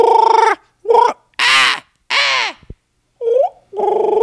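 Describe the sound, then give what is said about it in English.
A human voice imitates crows cawing in the woods, making six loud, harsh, nasal caws of uneven length with short gaps between them. “They were like a bunch of fucking crows just making weird noises at each other.”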